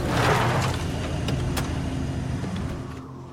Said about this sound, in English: The ATV draws up outside the motel.